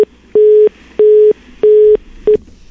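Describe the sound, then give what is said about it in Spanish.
A telephone busy tone sounds after a dropped call. Loud, steady beeps of a single mid pitch pulse on and off at even intervals, with three full pulses between clipped fragments at the start and end. “Se cortó la llamada. Vamos a tratar de recuperarla inmediatamente.”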